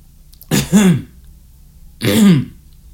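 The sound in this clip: Two rough throat clears from someone with something caught in the throat, separated by about a second. Each is a gravelly burst that settles into a lower voiced rumble, loud and alone with no talk.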